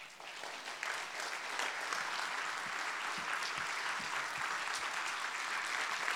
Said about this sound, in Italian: noi possiamo alzarci adesso e fare un applauso a Lui perché Lui è sovrano, e facciamolo allora.